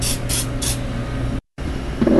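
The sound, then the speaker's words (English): Nonstick cooking spray hisses onto warmed waffle cone irons in three short bursts at the start, over a steady background hum that continues to the end. “With the batter ready and the irons warmed, I'm just spraying these down with some nonstick spray.”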